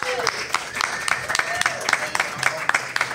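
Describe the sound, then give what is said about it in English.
An audience claps to welcome a guest onto a show, a quick, even run of claps over a low crowd murmur, with a voice over the top. “Please put your hands together and welcome Thomas Nichols, everybody.”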